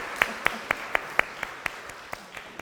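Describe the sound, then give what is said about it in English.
Clapping for a charity fundraising total raised for Cancer Research UK: around ten sharp, evenly spaced claps at a brisk steady beat, fairly quiet and crisp. “Slimming World managed to raise money for Cancer Research UK, and they've raised £10,300. That deserves a round of applause.”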